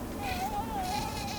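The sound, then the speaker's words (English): Aedes aegypti mosquitoes carrying the Zika virus, collected from standing water in the Rio Grande Valley at the southern tip of Texas, buzzing in a steady high-pitched whine that wavers slightly in pitch and continues throughout without talk. “The sound you're hearing comes from mosquitoes that carry the Zika virus. They're called Aedes aegypti.”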